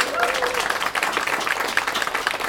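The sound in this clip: An audience applauds a performer in the hall of the Radio Nowy Świat station with a steady, busy patter of many hands. A voice briefly overlaps the start.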